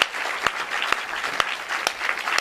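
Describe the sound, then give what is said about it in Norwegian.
Applause for singers and musicians at an Advent concert: dense, steady clapping from an audience, with sharper claps recurring at a regular beat throughout. “Da synes jeg at vi kan gi disse flotte sangerne og musikerne en fantastisk applaus.”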